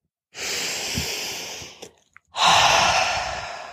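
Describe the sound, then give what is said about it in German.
A deep breath drawn in, a brief pause, then a long audible exhale; airy, steady and fairly loud, with no talk. “Mal einen tiefen Atemzug zu nehmen und alles mal auszuatmen”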